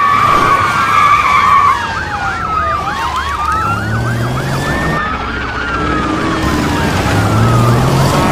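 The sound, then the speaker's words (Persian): Police car sirens wail and yelp without pause during a car chase onto a dirt side road, with several overlapping sirens sweeping up and down in pitch, loud and steady above a low engine rumble. “وارد جاده فرعی میشن که ماشینای پلیس راهشون رو میبندن.”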